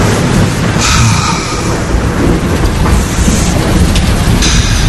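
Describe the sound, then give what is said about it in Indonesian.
Loud thunder in a continuous, dense low rumble with a broad noisy hiss layered over it, holding steady for about five seconds without distinct separate cracks. “Gila, bikin kaget aja tuh petir.”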